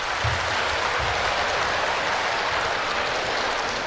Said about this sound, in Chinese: 您这个掌声太少了，掌声，掌声，掌声，掌声